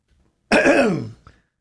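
A single harsh cough or throat-clearing burst, loud and rough, with its pitch sliding downward. A brief faint click follows, and quiet surrounds it before and after.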